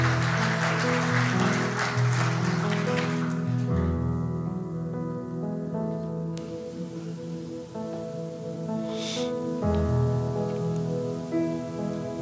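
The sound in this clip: Audience applause welcomes a musician to the stage before a Psalm 139 song. A burst of clapping runs for about four seconds over sustained stringed-instrument notes, which then carry on alone.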